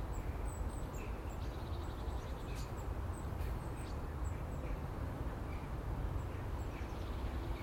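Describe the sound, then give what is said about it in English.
Blue tits call in a garden, many faint, high, short chirps scattered across a steady background hiss. “There's a host of blue tits in the garden at the moment.”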